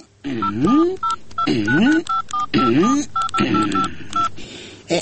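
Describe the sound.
Telephone keypad tones ring out as a number is dialed to place a call: many short, sharp beeps in quick succession alongside a repeating wavering tonal pattern.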